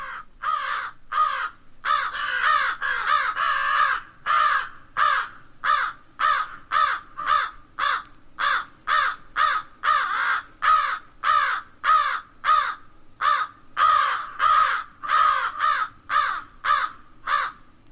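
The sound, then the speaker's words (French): An American crow calls with many harsh, repeated caws in a steady rhythm, each short and raspy, loud and alone with no voices. “la corneille d'Amérique”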